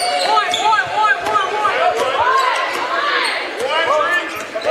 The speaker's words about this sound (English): Lexi Smith with the ball now, just dribbling there in front of half court for a second.